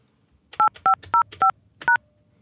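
Telephone keypad tones entering a voicemail password: five short two-pitch beeps, the first four evenly spaced and the fifth after a brief pause, crisp and clear against a quiet background.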